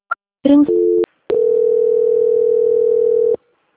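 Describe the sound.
Telephone tones while a call is being transferred: a brief beep, a short burst of mixed tones, and a steady two-note tone, followed by a long continuous single tone that holds for about two seconds and then cuts off.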